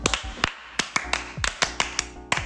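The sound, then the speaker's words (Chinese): The Taiwanese 'love encouragement' cheer, rhythmic clapping in short patterned groups, each clap sharp and crisp, fairly light overall. “张竹涵，让我们来为张竹涵加油打气，爱的鼓励一次。”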